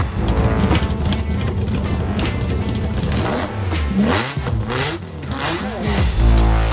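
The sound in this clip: A TVR Cerbera engine revs loudly, its harmonic whine sweeping up and down in pitch several times over a continuous rough rumble, ending in a deep low roar.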